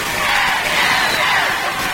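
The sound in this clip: Crowd noise in a stadium at an American football game: a steady, loud roar of many voices that rises and falls slightly without stopping.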